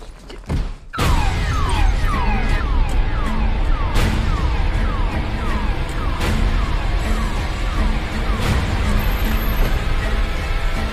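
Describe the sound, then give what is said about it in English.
Trailer audio for the film The Invisible Man: a tense, dense score with a sharp loud hit near the start, scattered impacts and a run of repeated descending tones throughout, with no speech. “That was from the trailer for The Invisible Man, the new movie by Lee Winnell starring Elizabeth Moss.”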